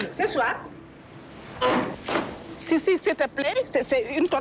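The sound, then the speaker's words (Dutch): Wooden drawers of sardinella fish drying tables slide open with a couple of short scraping rushes, and a voice talks around them. “Ze trekt een paar lades van de droogtafels open.”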